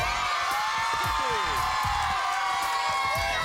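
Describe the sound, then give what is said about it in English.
A studio audience cheers and whoops in a loud, continuous roar of many voices that holds steady throughout. “we have a very fine studio audience that's right behind you. Are you ready, audience?”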